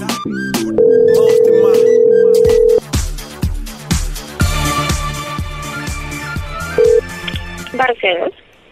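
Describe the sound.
Telephone tones sound as a number is dialed: a long, steady electronic tone, then a brief matching beep later, over rhythmic background music.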